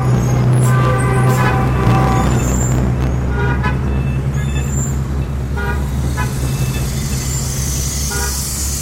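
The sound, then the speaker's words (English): Busy Beijing street traffic roars continuously, with car horns honking repeatedly over the dense engine and road noise. “rides out of his beloved hutong into the wall of sound known as modern Beijing”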